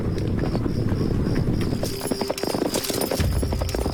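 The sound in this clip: Hooves of a Northern Wei cavalry army on the march through a remote mountain valley, a loud, continuous clatter of many clip-clopping hoofbeats overlapping in a dense, steady rhythm.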